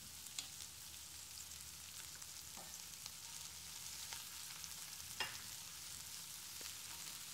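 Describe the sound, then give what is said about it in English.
Garlic and onion frying in a pan with leftover juices, giving a steady crackling sizzle with a few sharper pops and stirring clicks scattered throughout, heard alone without talk. “Let the juices drip off and stay in the pan, as it's going to be the base for our sauce. Adding garlic, our onion,”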